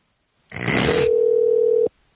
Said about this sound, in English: I am calling you. I'm calling you right now.